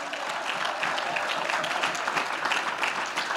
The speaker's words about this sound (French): Ah, j'ai dit acclamons le Seigneur. J'ai dit acclamons le Seigneur.